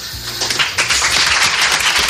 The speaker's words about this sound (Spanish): Entre aplausos de los médicos, de los periodistas y emocionado